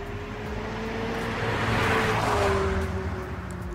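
Engine of a 155-horsepower car driving: a low droning hum with steady harmonic tones and a broad whooshing rush that swells in the middle and then eases, fairly quiet overall.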